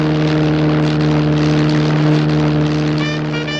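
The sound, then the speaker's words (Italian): The steady drone of a single-engine monoplane in flight over the Atlantic, heard from its cold cockpit: a loud, even hum with strong low tones that never breaks, and no voices. “nella gelida cabina di pilotaggio dello Spirit of St. Louis, e questo è il nome del monoplano con il quale Charles Lindbergh sta tentando la traversata atlantica”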